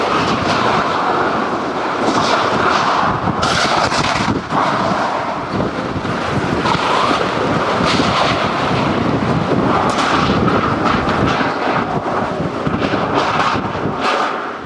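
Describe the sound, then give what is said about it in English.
Hurricane wind tearing through a town: a loud, continuous, roaring rush of wind that holds steady across the whole stretch, with no voices. “I think that sound is unnerving because you can hear the town coming apart.”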